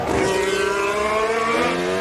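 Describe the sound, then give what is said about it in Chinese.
Racing car downshifting and turning through a long sweeping left-hand bend: a loud, sustained engine whine with dense harmonics that holds steady across the whole clip. “降档转向，连续的左转长弯”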